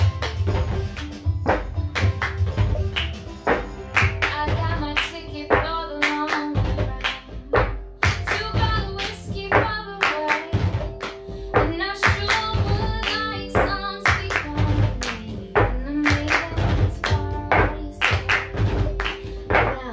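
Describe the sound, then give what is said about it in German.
Hands clap and drum on a table and cups are banged down in a classroom cup-rhythm game, forming a repeating pattern of many sharp taps, thuds and claps at a lively, steady pace. “Wir trommeln dreimal. Und wir hauen den Becher auf den Tisch. Das hören wir uns gleich mal an.”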